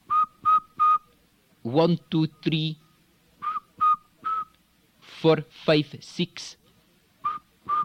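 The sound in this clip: Whistling made with the lips: short whistled notes of even pitch come in small groups, alternating with brief voiced vocal sounds.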